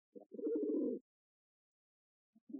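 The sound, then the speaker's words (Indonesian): A caged zebra dove coos: a short soft note, then a longer warbling, low-pitched coo phrase, and after a pause of more than a second another coo begins. “Suara apa itu? Oh, burung perkutut. Itu ada di sangkar.”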